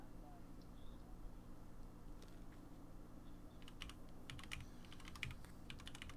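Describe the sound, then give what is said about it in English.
Loud mechanical computer keyboard with brown switches being typed on: sparse clicks at first, then a dense run of rapid, sharp keystrokes in the second half over a low steady hum. “You like how loud my keyboard is there? I do like it. Is that are those Cherry MX switches? I don't think they're cherry. I think they're brown.”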